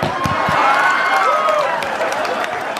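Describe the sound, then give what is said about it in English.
Audience clapping and cheering: a loud wash of hand claps mixed with raised crowd voices and a few whoops, staying fairly even throughout. “I can't believe you clapped about that.”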